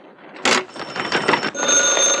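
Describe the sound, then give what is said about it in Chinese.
Telephone ringing in short, bright, rattling bursts of bell tone, with a steady high ringing note that carries through to the end. “立定！接电话。”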